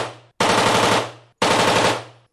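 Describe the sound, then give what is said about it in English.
Machine guns firing at a Las Vegas shooting range: two long, loud bursts of rapid fire separated by a brief pause, with the tail of an earlier burst at the start and another burst beginning at the very end. “At this firing range in Las Vegas, gun enthusiasts shoot machine guns.”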